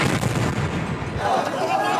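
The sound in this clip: Israeli airstrikes and explosions in Gaza: a dense, unbroken roar of blasts and deep rumbling, loud throughout.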